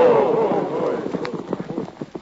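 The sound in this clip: Horses galloping away in a Western drama: rapid clip-clop hoofbeats begin under a raised voice, then continue as quick, uneven beats on their own.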